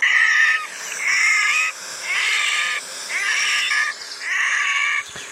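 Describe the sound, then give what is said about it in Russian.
A red-necked grebe gives five loud, harsh, crow-like croaking calls, each lasting under a second, in a steady evenly spaced series with short pauses between them. “Серощёкая поганка каркает просто как ворона.”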